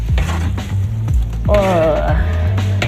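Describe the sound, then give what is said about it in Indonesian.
Stirring of 30 kg of ground spice paste sautéing in a pan: repeated heavy scraping strokes in a steady rhythm over a constant low sizzle, with a brief vocal sound partway through. “Terus diaduk-aduk. Saya boleh nyoba ngaduk, Mak? Iya. Kelihatannya berat banget ini karena bumbunya sampai 30 kg.”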